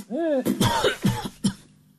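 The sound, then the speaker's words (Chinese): Harsh coughing from a man who has just drawn on a water pipe: a brief voiced groan leads into several sharp coughs in quick succession, dying away at the end. “呛的狄景辉呀，咳了好几声。”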